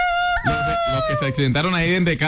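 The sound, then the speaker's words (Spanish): A rooster-style crow from a radio traffic segment's early-morning rooster sound: a sustained, strongly tonal call with a steady held pitch, heard beneath continuous talk. “Los estamos enunciando desde muy temprano con el gallito madrugador del costeño, que suena así.”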